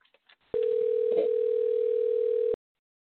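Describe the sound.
A steady telephone tone follows a call dialed on a dial pad: a few faint blips, then one loud, even, unbroken tone lasting about two seconds before cutting off cleanly.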